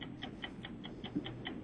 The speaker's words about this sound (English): we're going to start your timer